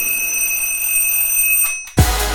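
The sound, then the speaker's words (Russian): An alarm clock rings with a steady, piercing high electronic tone held unbroken for about two seconds, then cut off by a sudden loud low thump. “но утром будильник.”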